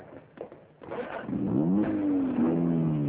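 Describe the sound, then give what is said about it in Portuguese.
A car pulls away from a tavern. After a few soft knocks, the engine swells into a rising, revving drone with a strong tonal whine that stays loud to the end. “Ouviu-se por momentos o ruído do carro e depois o silêncio.”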